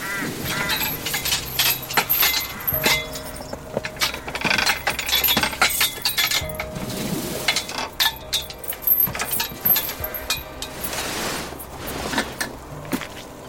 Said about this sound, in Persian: در آهنی باقی پوشیده از برف رو باز می کنه.